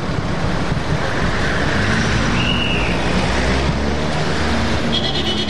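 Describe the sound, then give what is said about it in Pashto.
Road traffic at a signal, with cars driving past in a continuous loud roar and rumble that stays dense and unbroken throughout, and a faint high tone near the end. “د بهرنیانو موټر خو دغه د تیر شول، حرکت به وکړو.”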